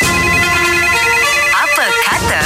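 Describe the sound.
A telephone rings for an outgoing call, with steady ringback tones running throughout while a voice talks over the last second.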